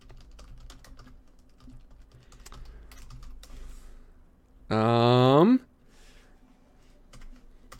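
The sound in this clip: Keys clatter on a computer keyboard while someone checks through files and folders, scattered light clicks running throughout, with a brief tonal sound that falls in pitch in the middle.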